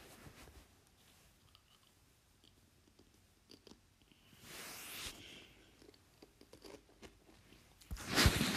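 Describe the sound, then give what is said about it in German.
Potato chips being eaten: soft, irregular chewing crunches, rising to a couple of louder crunching bursts, with no talking. “ich esse gerade ein paar Chips dabei.”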